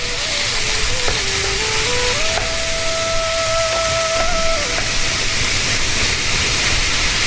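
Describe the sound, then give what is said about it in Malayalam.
Papaya pieces sauté in hot coconut oil with a steady, even sizzle and hiss that holds at the same level throughout. “ഈ ഒരു വെളിച്ചെണ്ണ നന്നായിട്ട് ചൂടായി വരുമ്പോൾ അതിലേക്ക് ഈ ഒരു പപ്പായ ഇട്ടിട്ട് നന്നായിട്ടൊന്ന് വാട്ടിയെടുക്കുക കേട്ടോ.”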